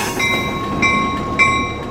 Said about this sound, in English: But for now, this locomotive is hauling the port's mainstay, steel.